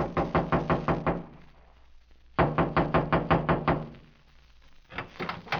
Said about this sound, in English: I walked through the clearing and knocked on the door.